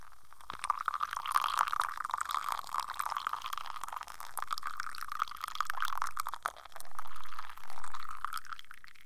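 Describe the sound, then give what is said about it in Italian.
Coffee is poured from a coffee pot into a small cup, making a faint, steady trickling splash that continues for several seconds, then gives way to a couple of smoother swelling gurgles near the end. “Prendo la mia tazzina preferita e ci verso il caffè.”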